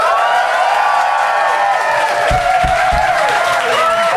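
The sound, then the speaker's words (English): An audience cheers and applauds to vote for a side at a debate-style event. Loud, continuous crowd noise with shouting and whooping voices, and a few stronger bursts of clapping near the end. “please applaud now.”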